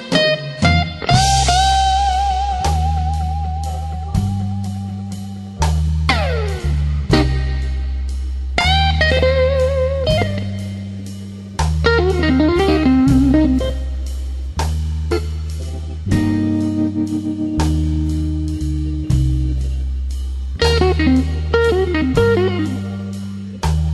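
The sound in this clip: Instrumental blues music plays: a steady stepping bass line underpins an electric guitar with bent, sliding notes and ringing phrases, loud and continuous throughout.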